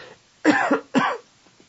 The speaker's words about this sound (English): he's choking at the moment. He'll be right back with this.